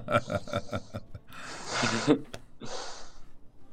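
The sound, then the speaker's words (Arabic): A nervous person takes two long, airy breaths, audible as breathy rushes of air that follow a few brief softer sounds. “بس لحظة أخذ نفس شوي متوتر. خذ نفسين مش نفس.”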